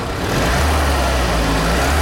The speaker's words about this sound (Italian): quello che state ascoltando è il suono di un motore particolare, un propulsore a benzina che però ha un sistema di accensione simile a quello di un diesel